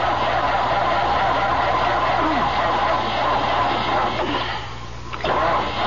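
A car engine cranks but fails to start far out on a lonely road, a steady grinding whir that dips briefly near the end and then resumes.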